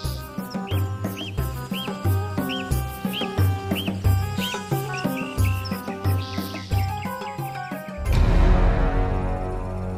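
Birds chirp in a big leafy tree beside a pond: repeated bright chirps ring over layered tonal music. A loud rushing noise takes over near the end.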